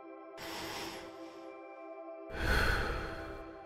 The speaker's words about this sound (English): Breathe deeply in through your nose and breathe out slowly through your mouth. Do this again.